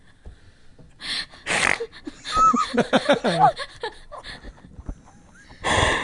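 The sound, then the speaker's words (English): A person snorting while laughing: loud, breathy snorts with wheezy, gasping laughter between them. “It was a one-time thing. Well, only one snort per episode.”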